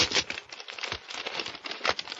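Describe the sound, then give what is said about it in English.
Paper crinkles and tears as an envelope is opened, with many irregular crackling rustles running continuously for about two seconds. “Well, better see what's in this envelope.”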